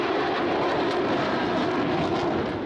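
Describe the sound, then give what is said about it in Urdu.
Army helicopters flying past in a march-past at a defence show in a Lahore stadium, heard as a steady, loud, dense engine roar with no breaks and no voices. “پاک فوج کے ہیلی copters نے march past کیا۔”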